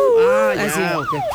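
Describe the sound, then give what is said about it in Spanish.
A siren linked to a TV news reporter's car wails in loud, smooth sweeps that rise and fall in pitch, with rich overtones, over about a second and a half. “No, es una sirena. Es una sirena. Es reportero, sale y entra la sirena.”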